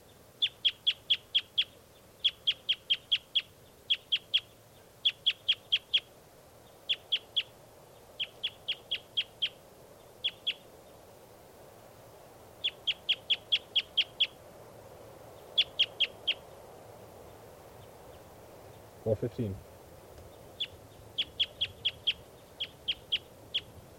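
A bird calling in many quick series of high, thin chirps, each group a few notes long with short pauses between, faint over low background noise.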